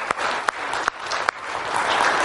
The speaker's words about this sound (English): Let's give the Lord a round of applause, shall we?